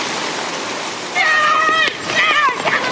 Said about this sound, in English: This is Boris Johnson, age five, paddling his own canoe.